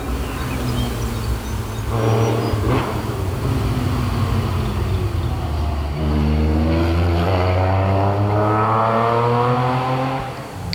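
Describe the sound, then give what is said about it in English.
Engine of a 1974 911 sports car at a motor racing event: a steady droning roar that swells into a rising, revving tone in the second half. “One of the more pretty cars in the event, the 911, 1974, but in martini colours”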